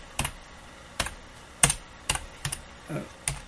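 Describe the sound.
Someone types a chat message on a computer keyboard. The faint, sharp keystrokes come in an irregular, sparse series with short gaps between them, and no one speaks.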